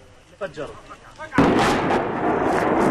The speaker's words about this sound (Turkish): Patlayıcı yerleştirilen ev saniyeler içinde yıkıldı.